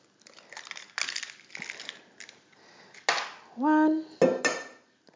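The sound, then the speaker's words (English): Whole eggs being cracked into a bowl for the cream of a zuppa inglese: a few sharp, faint cracks and taps, with one brief ringing clink of the bowl among them. “So what I need is 2 eggs. And I'm using the whole egg, so yolk and white.”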